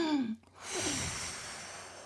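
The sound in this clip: Slow, deep breathing demonstrated for an elderly patient during care: a short voiced sound with falling pitch, a brief pause, then a long, breathy exhale that fades gradually.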